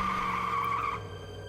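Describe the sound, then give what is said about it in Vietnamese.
Tires on a pickup truck screech as it fails to brake, a loud, high, continuous squeal lasting about a second before it drops to a lower lingering hum. “Chiếc xe bán tải đang lưu thông không kịp đạp thắng, một tiếng rít lạnh lùng vang lên.”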